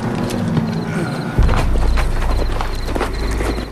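Horse hooves clop on the ground as a woman rider pulls up on horseback in a Western gunfight scene after a wagon explosion; irregular hoofbeats are joined midway by a deep, sustained rumble.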